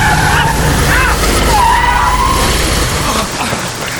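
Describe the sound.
A car skidding in the rain, a loud, harsh rush of noise with a thin tire squeal that streaks through the middle, then eases slightly near the end.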